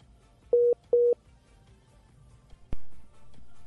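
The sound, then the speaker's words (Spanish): Telephone dialing tones on a phone line: two short, even beeps in quick succession, then a sharp click and a steady tone. “se está atravesando alguien en la comunicación. Le están marcando. Le están marcando exactamente.”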